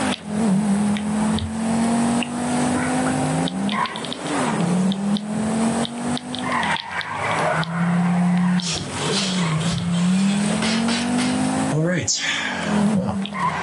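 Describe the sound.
A car engine drones and revs as the car drives, its pitch climbing and dropping again and again with gear changes, with occasional tyre squeal and people talking over it.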